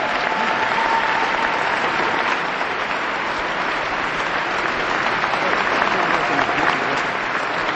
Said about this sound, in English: please give a warm Wisconsin welcome for the return of the GMAC Gospel Music According to Chicago Mass Choir. Give them a big hand, folks.